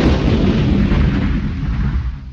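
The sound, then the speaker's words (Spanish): A loud explosion near an armoured vault, heard as a dense, low, rolling roar that holds steady for about two seconds before cutting off abruptly. “¡Una explosión!”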